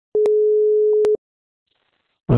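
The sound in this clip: A telephone ringback tone sounds while a call goes unanswered: one steady mid-pitched tone lasting about a second, clicking on and off, then silence before a voice briefly starts at the very end.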